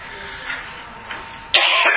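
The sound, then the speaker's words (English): A person with a lingering cough, speaking during a Bible teaching, lets out a sudden harsh cough near the end after a quiet, low stretch. “I still haven't gotten rid of the cough. Hopefully, we can get through without too many coughing fits today.”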